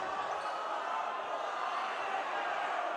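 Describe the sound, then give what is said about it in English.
Crowd reacting at a high school basketball game between Lincoln East and Lincoln North Star as a couple of players fall onto the hardwood. A steady, even roar of spectator noise continues throughout. “couple guys fell onto the hardwood. That's why you're hearing the reaction from the crowd.”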